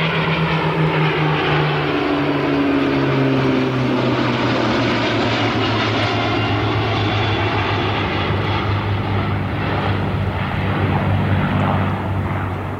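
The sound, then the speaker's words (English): Merlin piston aircraft engines roar in a loud, continuous, heavy drone with a steady low harmonic hum throughout, and no voices. “those Merlins are really do make a nice sound, don't they?”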